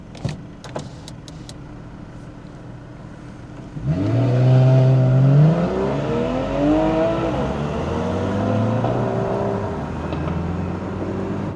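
A Porsche 911 sports car engine revs hard after a few seconds of quiet. Its loud, throaty note climbs and dips through several rises in pitch, then settles into a steady, sustained roar.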